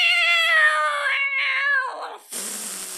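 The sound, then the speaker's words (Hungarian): A cat yowls loudly after its tail is stepped on. One long, high, wailing cry drifts slightly downward, breaks off, and is followed by a harsh, breathy hiss. “belépett az ajtón, rálépett a macska farkára”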